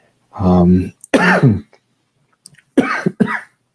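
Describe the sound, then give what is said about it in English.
Coughing: harsh coughs and throat clearing come in two loud bursts separated by a short silent pause, with no talk around them. “again, I apologize for the coughing.”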